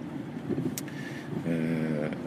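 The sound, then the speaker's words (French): Steady low engine and road rumble inside a moving car, fairly quiet and continuous, with a faint tonal hum rising into the second half. “Je suis encore en voiture”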